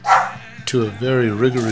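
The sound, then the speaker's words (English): A dog barks and yelps in a few sharp bursts, then gives a drawn-out, wavering vocal whine, with a person's voice also present. “don't pay my dog any attention. He's just going off.”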